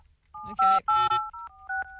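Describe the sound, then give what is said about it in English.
Telephone keypad tones sound as a number is dialled to call a mother: a quick run of clear electronic beeps at a steady pitch, some short and some held, with short gaps between them. “we're going to dial through to your mum”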